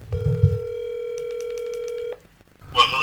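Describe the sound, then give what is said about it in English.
A telephone dial tone sounds while a call is placed, holding steady for about two seconds with quick keypad beeps over its later part, then cutting off. Faint voices are heard before the tone and again after it. “You know what? We should call him. Let's see if he answers.”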